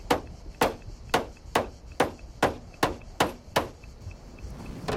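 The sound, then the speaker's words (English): Sharp, hard knocks of a hammer striking a knife handle, its blade pushed into a car trunk's keyhole: nine evenly spaced blows about half a second apart, each ringing briefly, then the striking stops. “She pushes the blade into the trunk's keyhole and hammers the handle.”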